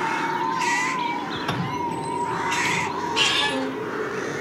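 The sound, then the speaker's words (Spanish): Caged birds squawk in a few harsh, scattered calls over a steady background. “Jaulas con pájaros colgando.”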